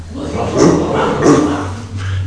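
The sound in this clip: A sheepdog gives two woof-like barks at a Christmas Eve nativity telling, about half a second apart, over a steady low hum.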